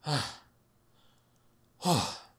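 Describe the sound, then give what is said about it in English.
Two heavy breaths from someone out of breath after running, each a loud, breathy sigh-like exhale, the first at the start and the second near the end, with quiet between them. “I had to run. Let me get my breath.”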